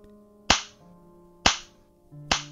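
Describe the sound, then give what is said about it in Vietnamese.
Slaps ring out in a rented room: three sharp, loud smacks roughly a second apart, each cracking suddenly and dying away quickly over a faint low hum. “Từng cú tát vang lên trong căn phòng trọ”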